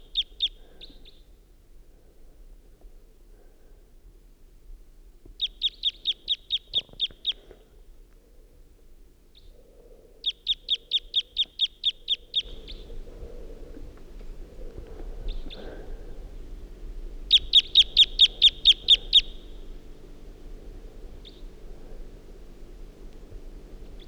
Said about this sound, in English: there's a wild bird around who is giving type 2 calls and song.